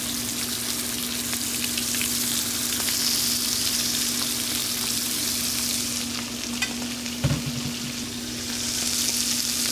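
Livers frying in a pan in a restaurant kitchen, a steady, dense sizzle with crackles that carries on evenly, broken only by a brief low thump near the end.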